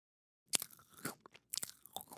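Crunchy chewing of food, faint and close, following a short silence. Two clusters of crisp biting and crunching bursts are separated by softer mastication.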